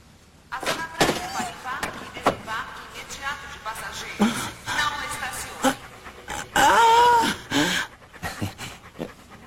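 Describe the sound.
Dogs pant in quick, breathy bursts, mixed with soft whimpers and a dull thunk, while people talk over them.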